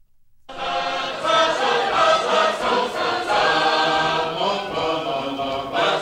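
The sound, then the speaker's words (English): Sacred harp shape note singing, an American folk tradition: a full group of voices sings loudly in sustained harmony, rising from silence after a brief pause and continuing steadily with slight swells. “This is the sound of sacred harp singing, or shape note singing. It's an American folk tradition that dates back to the 18th century and can still be heard in some parts of the country today.”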